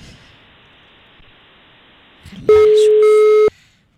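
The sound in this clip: A telephone call tone on the line, one loud steady beep lasting about a second. Faint rustling and low noise come just before it.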